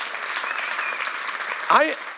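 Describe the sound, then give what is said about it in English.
A church audience clapping and shouting, a steady wash of applause and cheering with one voice rising in a brief loud shout near the end. “Come on, give the Lord a shout and give the Lord a clap.”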